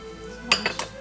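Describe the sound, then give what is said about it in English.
A ham and cheese crepe being folded in a pan, with about four short, sharp metallic clinks of utensil against pan, spaced irregularly over a quiet background. “And then now we're gonna fold it in the pan.”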